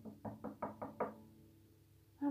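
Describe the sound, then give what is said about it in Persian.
Knocking on a palace door in a children's tale: six firm knocks in an even, quick rhythm, then a pause of near silence. “اونا رفتن و رفتن و رفتن تا بالاخره رسیدن به در قصر. در زدن،”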